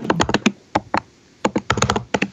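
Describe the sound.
Keystrokes on a computer keyboard come in two quick flurries of sharp clicks separated by a brief pause, fairly loud with no talk.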